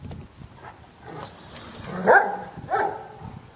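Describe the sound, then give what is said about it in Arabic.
Dogs barking, among them a baladi dog and a Dalmatian of different breeds, giving a few scattered barks and yips, with two louder barks standing out in the second half. “هنا في تعاملات بقى بين الكلاب وبعضها، وفيه لغة. التلاتة من فصائل مختلفة، ده كلب بلدي وده كلب دالميشن وده كلب”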